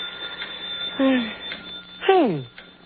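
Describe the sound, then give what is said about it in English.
A telephone rings late at night in a quiet house. Two short, bright rings sound over a steady low hiss, with a pause between them. “That's a phone. Who could be calling this late?”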